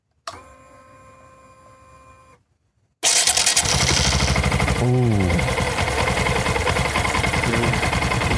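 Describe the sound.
A banana-yellow motorcycle starting up: a thin steady electric whine, a brief silence, then the engine fires abruptly and settles into a loud, rough, throbbing idle that continues to the end.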